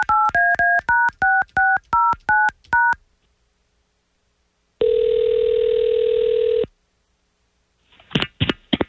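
Touch-tone keypad beeps sound as a phone number is dialed to call someone, a quick, even run of short two-tone blips, then after a pause a long steady ringing tone and a brief clatter at the end.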